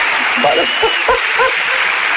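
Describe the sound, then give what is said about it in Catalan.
Studio audience applause for a radio guest joining over a remote link: a steady, fairly loud wash of clapping, with a voice speaking briefly over it in the middle. “No, home, no m'havien aplaudit d'aquesta manera mai, estant al vàter, diguéssim”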